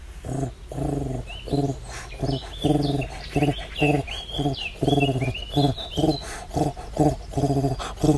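European turtle dove calling: a long series of low, rolling purrs repeated in a steady rhythm. Thin, higher chirps from other birds run above the purrs.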